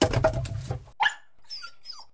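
A lazy pet dog whimpers. A louder rough burst comes first, then a few faint, thin, high-pitched whines.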